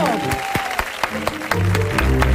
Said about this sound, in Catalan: Vols llegir ja el següent o segueixo aplaudint fins que sigui les 5 de la tarda?